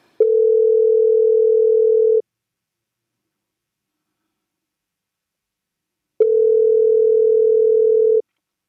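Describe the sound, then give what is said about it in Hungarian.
A telephone line tone sounds after a call drops: two long, steady, mid-pitched beeps of about two seconds each, separated by several seconds of silence, loud and alone. “úgy látszik, hogy megint megszakadt a vonal.”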